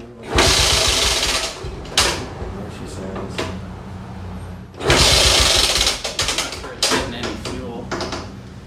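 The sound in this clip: A small gasoline engine of about 18 cubic inches with a thumb throttle and a dry fuel tank is cranked and fails to start. Two loud bursts of rapid cranking are separated by quieter sounds and people talking.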